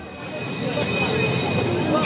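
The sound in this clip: A tram runs along a car-free track through a city centre with a continuous low rumbling roar and a thin, steady high whine over it, holding level from start to end.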